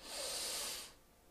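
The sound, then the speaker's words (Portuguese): A single deep breath drawn in through the nose during a guided breathing exercise, a soft, airy hiss lasting under a second before fading to near silence. “respira fundo por três vezes e solta pela boca”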